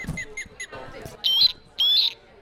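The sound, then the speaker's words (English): An osprey calls with shrill, high whistled chirps: a run of quick short notes, then longer, louder squealing whistles repeated in bursts. “Well, my, if that isn't an osprey.”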